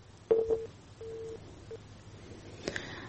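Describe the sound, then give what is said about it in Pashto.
A faulty telephone line gives a few short, mid-pitched beeps of uneven length, faint against a low line hum, followed by a brief click near the end. “د تلیفون کرخې خراب دي او زمګ د میلمنو اړیکې پرې کیږي”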